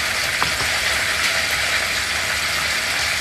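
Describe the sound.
Clarified butter sizzling in a pan while potatoes are being cooked, a steady, dense crackling hiss that holds evenly throughout with no talk over it.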